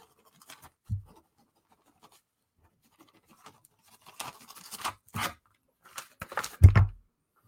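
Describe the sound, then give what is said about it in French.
Handwriting: a pen scratching on paper in a few short, faint bursts of scraping strokes, with a couple of soft low thumps among them. “Je vais vous l'écrire.”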